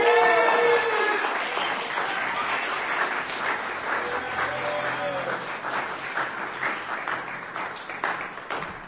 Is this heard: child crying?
no